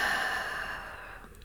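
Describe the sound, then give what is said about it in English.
A loud, breathy exhale during a guided breathing exercise, a rush of air that starts strong and gradually fades over about a second and a half. “rest your hands, take a full breath in, and loudly exhale.”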